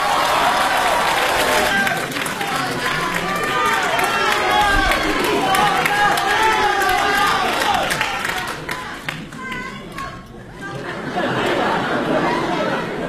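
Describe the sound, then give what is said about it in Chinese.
Warm audience applause at a live crosstalk comedy stage show: dense, continuous clapping with people talking over it, thinning briefly in the latter part before picking up again. “一上来您就报以热烈的掌声。”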